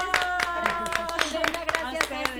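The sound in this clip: A talk-show audience claps for a guest, with scattered hand claps rising through the background while voices speak over them.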